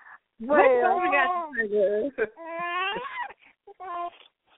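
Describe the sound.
A baby girl calls out, seemingly for her pacifier and bottle, in a string of whiny, wavering cries and whimpers. Several loud vocal bursts come with short pauses, then a few shorter calls near the end.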